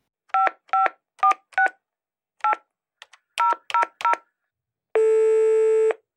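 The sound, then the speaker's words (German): A telephone keypad dials a call: a quick series of beeps in an uneven rhythm, followed by one long, steady tone. “Soll ich das mal anrufen? Ja, großartige Idee.”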